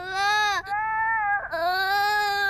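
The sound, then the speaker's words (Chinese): A child crying, loud sustained wailing in three long harmonic cries separated by brief catches of breath, holding a fairly steady high pitch. “啊， 不哭不哭， 呼噜呼噜毛，吓不着。”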